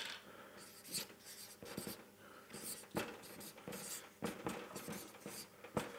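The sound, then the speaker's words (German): Handwriting scratches along as Bible verse notes are written out, with many quick, rhythmic strokes and taps of varying loudness and no voices. “also ich schreibe das jetzt da nochmal auf, dass man es ein bisschen merken kann.”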